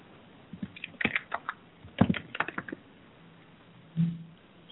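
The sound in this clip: Keystrokes on a computer keyboard as a web address is typed: two quick bursts of clicking taps, a short pause, then one last firmer keystroke, with no talking.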